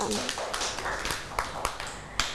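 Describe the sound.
Young children and their teacher clap in a school classroom for a little girl who helped tidy the toys. A few scattered, irregular sharp claps mix with talking.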